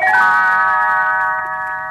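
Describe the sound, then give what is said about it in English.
A small bell chime rings as the page-turn signal for a read-along storybook: a single bright, sustained ring of shimmering harmonics that lingers and slowly fades across the whole clip, with no talking. “You will know it is time to turn the page when Tinkerbell rings her little bells like this.”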